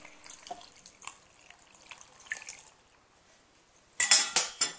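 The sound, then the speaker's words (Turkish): Water poured over a pastry covered with chard and beans: soft drips and light clinks come first, then a loud gushing pour with a few surging pulses near the end. “Bunun üzerine su koyacağım.”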